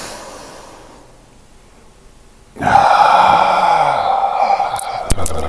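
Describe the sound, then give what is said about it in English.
A deep breath drawn in during a guided mindfulness exercise: a steady, airy rush that starts after a quiet pause and holds for about three seconds, fairly loud and alone. “So let's inhale and big exhale. Big inhale.”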